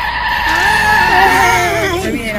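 A car skids as its brakes screech, played as a sound effect. A loud, sustained, high tire squeal wavers and bends in pitch for about two and a half seconds.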